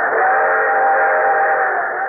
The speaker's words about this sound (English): This train is carrying naval supplies, food, medicine, and ammunition to a Chinese port for shipment to the South Pacific.